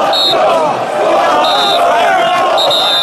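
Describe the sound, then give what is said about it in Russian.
Football fans shout and roar in a stadium as the match ends. The crowd noise is loud and sustained, with voices blending into a continuous din and a few high whistle-like tones rising above it. “Игра закончена. Кричат болельщики.”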